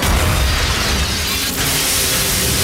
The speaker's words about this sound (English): In flash forward, the hostage explodes and Stanley sent flying back through the air.